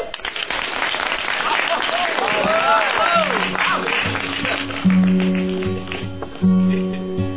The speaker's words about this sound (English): let's give a big round of applause